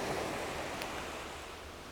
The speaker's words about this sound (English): And the tide is just beginning to recede now.